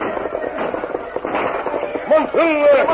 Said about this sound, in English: The masked man and Tonto were some distance behind the hard-riding war party when the Indians opened fire.